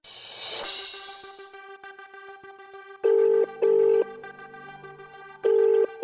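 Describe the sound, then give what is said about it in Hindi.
A telephone is dialed and the line is busy. A noisy burst opens, a quiet steady hum follows, then three loud, evenly spaced steady beeps of a busy signal sound, with a fourth just starting as it ends. “The number you have dialed is currently busy. Please try later.”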